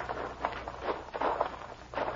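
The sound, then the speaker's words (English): Footsteps of people walking while carrying suitcases, a few soft, uneven thuds spaced across the moment at a moderate walking pace, with no talk. “They carried the suitcases, and I walked ahead of them”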